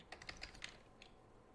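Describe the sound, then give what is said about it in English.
Typing on a computer keyboard: a faint, quick run of several key clicks, then a single later keystroke after a short pause. “If I can type it here.”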